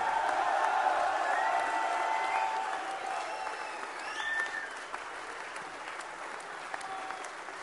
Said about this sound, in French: Un tonnerre d'applaudissements pour l'UPR et pour Monsieur Asselineau